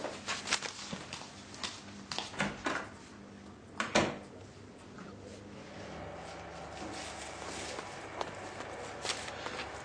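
Footsteps of someone running off, a few quick, uneven steps over the first half, then only a steady low background hum.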